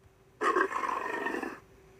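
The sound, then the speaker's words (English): A Sumatran tiger, from the island of Sumatra in Indonesia, lets out a single loud, rough roar lasting just over a second, standing alone against near silence. “Scientists believe that in 30 years, there might be no tigers left. Sumatran tigers.”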